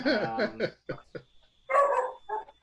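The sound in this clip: Dog barking sound effect played during a tabletop role-playing game: a few loud, sharp barks and yips come in quick, uneven bursts.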